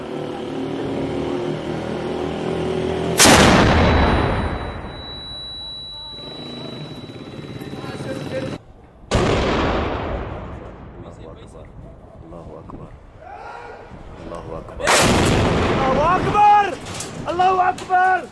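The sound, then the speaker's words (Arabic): Hell Cannon artillery shelling by fighters on the Ameriya district: three heavy booming blasts spaced several seconds apart, each with a long rumbling decay, while men's voices talk and shout between the shots. “نحن المجاهدون جبهة شامية نقوم بدك ماقل الشبيحة في حي العامرية في مدفع جهنم”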